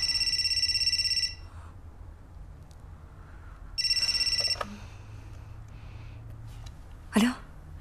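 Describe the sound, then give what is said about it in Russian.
A telephone rings during a call to a home, with two bursts of bright, buzzy electronic ringing separated by a long pause, followed by a short, faint noise near the end. “Боря звонит Полине домой.”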